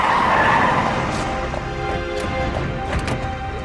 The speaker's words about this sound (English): Suddenly, two police cars pull up, surrounding him.